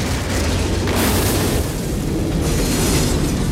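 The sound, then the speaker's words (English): A huge explosion as a train plows into a limo and splits it in two: a loud, continuous roaring rumble that swells and surges, filling the whole clip with no voices. “the train plows straight into the limo, splitting it in two with a huge explosion.”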